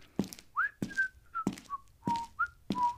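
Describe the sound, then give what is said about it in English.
Someone whistles a bright tune while walking, several short melodic phrases rising and falling, with regular soft thuds under the whistling. “So Haman left the king's palace, happy and content, whistling as he walked,”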